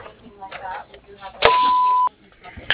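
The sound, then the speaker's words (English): A single steady mid-pitched voicemail beep, held for just over half a second, marks the start of a message on the line of a Bobcat and backhoe service; faint, speech-like murmurs come before it. “Hi, you've reached General Voicemail for American Bobcat and Backhoe Service. Please leave your message after the tone.”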